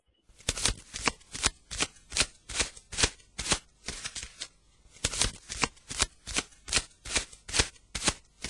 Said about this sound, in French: La carte que je viens de te tirer